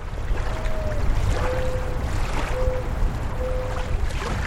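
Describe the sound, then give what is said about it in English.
Water washes steadily along the shore of Walden Pond in Concord, Massachusetts, a continuous soft wash with four steady, whistle-like tones drifting above it. “On July 4th, 1845, Henry David Thoreau came here, to the shores of Walden Pond in Concord, Massachusetts.”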